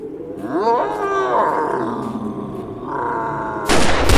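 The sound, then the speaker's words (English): A grizzly bear roars loudly and continuously, its rough growl rising sharply in pitch at the start and then holding as a long drawn-out bellow, ending with a sudden loud sharp burst. “Look! A grizzly bear is coming our way!”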